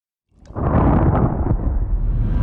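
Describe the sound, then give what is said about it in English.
A deep, rumbling explosion from an intense experimental sound piece swells up after a brief silence and holds as a heavy, roaring, thunder-like mass of low noise to the end. “Finally, everything explodes.”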